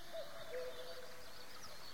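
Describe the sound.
Birds chirp in a garden of fruit-laden trees: a few faint, short whistled calls rise over a steady soft hiss.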